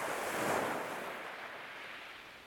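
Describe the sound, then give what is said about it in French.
Sea waves wash in a soft surf for an island seashore scene by the rocks. One broad, hissing swell builds, then slowly recedes, faint and windy, with no voices. “La scène est dans l'île des esclaves. Le théâtre représente une mer et des rochers, d'un côté et de l'autre, quelques arbres et des maisons.”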